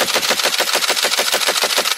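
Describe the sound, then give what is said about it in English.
Automatic gunfire from Ukrainian National Guard fighters shooting at approaching Russian soldiers: a loud, steady stream of rapid shots at an even rhythm, with no voices. “In a while, the National Guard servicemen fixed four Russians approaching their positions. Ukrainian fighters start shooting.”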